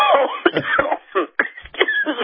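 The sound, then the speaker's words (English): A person with a persistent cough coughs a few times: harsh, abrupt bursts separated by short pauses, with rough throaty sounds between them. “I'm sorry. I have this stupid cough that gets worse in the mornings.”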